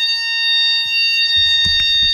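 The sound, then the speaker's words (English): A fire alarm sounds during a test, holding a steady, piercing high electronic tone the whole time. A few soft low knocks and thuds come in underneath near the end. “Hang on. Fire alarm!”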